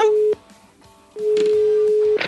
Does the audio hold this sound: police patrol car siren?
no

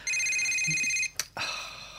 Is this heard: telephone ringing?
yes

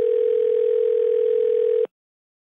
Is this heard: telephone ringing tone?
yes

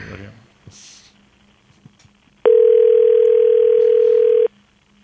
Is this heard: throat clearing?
no

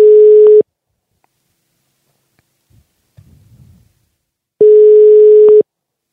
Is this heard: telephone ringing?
yes

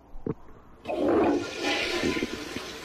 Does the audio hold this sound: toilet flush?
yes

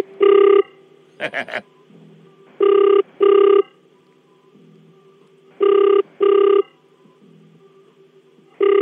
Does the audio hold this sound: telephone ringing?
yes

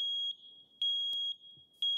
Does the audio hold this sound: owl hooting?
no

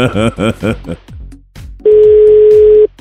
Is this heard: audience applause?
no

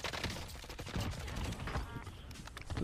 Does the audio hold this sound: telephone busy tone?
no

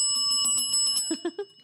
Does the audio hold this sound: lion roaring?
no

